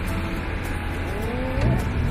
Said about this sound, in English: A four-wheel drive vehicle pushes the boat off the sandy beach at high speed.